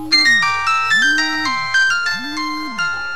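A phone ringtone plays: a bright electronic melody with ringing tones over a low swooping note, repeating in a steady loop with no voices.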